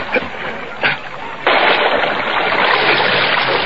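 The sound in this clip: Splashing water as a man swims out to help another: a few brief splashes, then a loud, steady churning wash that carries on to the end.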